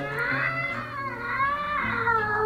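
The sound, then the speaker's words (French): A cat's drawn-out, harsh meow, an eerie caterwaul with wavering pitch that rises and falls over about two and a half seconds, loud and alone with no talk. “Et alors là, de nouveau, l'horrible miaulement de la bête du bon Dieu.”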